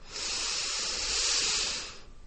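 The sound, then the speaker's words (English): A deep breath, heard as one long, loud, airy hiss that holds steady for about two seconds and then fades out, with no talking over it. “So how we do it is we take that deep breath in”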